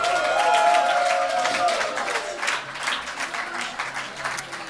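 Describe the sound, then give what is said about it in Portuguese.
Audience applause for a song contest entry: a dense, even wash of many hands clapping, loudest at the start and easing slightly while staying steady to the end. “Uma salva de palmas para o Luxemburgo, pessoal.”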